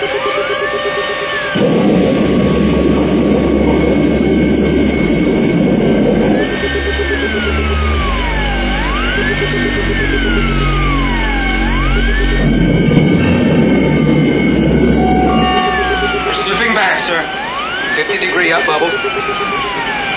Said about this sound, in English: Blow main ballast tanks. Blow safeties. Blow auxiliaries. Blowing all ballast tanks.